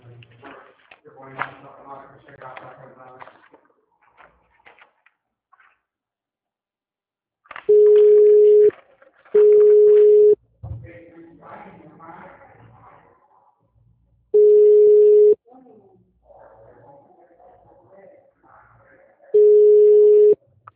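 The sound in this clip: Telephone line tones during a call transfer: four steady, mid-pitched beeps, each about a second long, sound loud and alone between stretches of talk.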